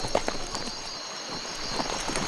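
Horses' hooves as riders pass busy saloons in a mining town at night: a few uneven clops stand out over a steady background hiss.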